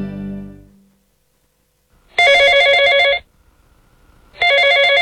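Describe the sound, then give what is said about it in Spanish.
A telephone rings twice and goes unanswered: two loud electronic trilling bursts, each about a second long, separated by a brief pause. “Cada llamada que no contestas termina en manos de tu competencia.”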